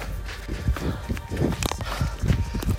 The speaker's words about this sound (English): I've got a guy in front of me who's setting the pace. Been running with him for about, I don't know, 2 miles now.